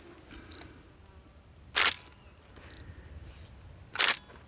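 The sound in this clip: A camera shutter photographing an animal from above before it is marked: two sharp, loud clicks, a couple of seconds apart, over a quiet background with faint high tones.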